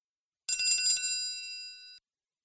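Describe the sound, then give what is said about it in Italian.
A small bell chimes once as the cue to answer in a listening quiz: a bright, high ring that flutters rapidly at the strike, then holds a clear tone and fades smoothly over about a second and a half, alone. “Ascolta e rispondi dopo il suono del campanellino.”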